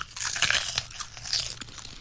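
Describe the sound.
Crunching, biting and chewing of a bad-tasting treat: crisp, uneven bites and grinding in quick succession, heard alone without speech.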